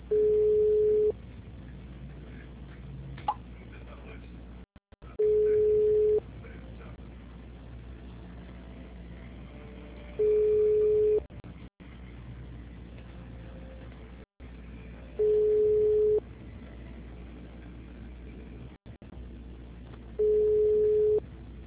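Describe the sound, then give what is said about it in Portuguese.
Telephone line tone while a call is transferred to an attendant: five evenly spaced beeps at one steady mid pitch, each about a second long and repeating every five seconds over a low, constant line hiss. “Estamos transferindo sua ligação para um de nossos atendentes.”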